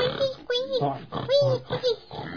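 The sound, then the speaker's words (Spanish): Piglets grunt and squeal while playing in a puddle, in several short, voiced bursts of rising and falling pitch. “Puercos guaguas. Sí, jugando en el charco. Con el charco de agua, unos bonitos puercos eran.”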